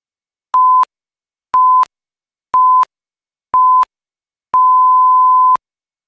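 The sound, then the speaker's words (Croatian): A radio time signal marks six o'clock in the evening on Bosnian radio: four short, steady, high-pitched beeps one second apart, then a longer final tone, heard alone. “Osamnaest sati. Radio televizija Bosne i Hercegovine.”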